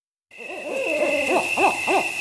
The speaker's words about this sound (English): On the next Outside In, does it make sense to save an endangered owl by killing another owl?